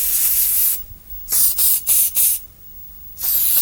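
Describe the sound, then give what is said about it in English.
Hissing sprays from a high-pressure nozzle putting flavour liquid onto a film: a long loud burst, a few short sharp bursts in quick succession, a pause, then another sustained hiss. “The sprays are mixed together to get the taste of that food. And the spray is put on a film”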